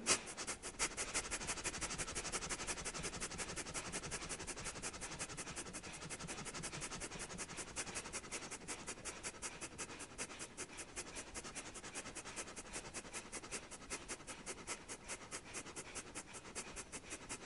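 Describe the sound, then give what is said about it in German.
Rapid, forceful breaths through the nose during a fast Kapalabhati yoga breathing exercise make a steady, quick pulse of many short puffs. The faint breathing runs unbroken from start to end. “bei der du fast wie beim Häscheln so schnell ein- und ausatmen, wie du kannst, aber du atmest weiter durch die Nase.”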